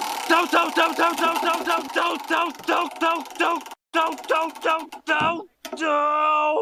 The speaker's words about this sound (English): Well, to do that, we're going to need that Wheel of Random. Let's give it a spin to see which season we're in.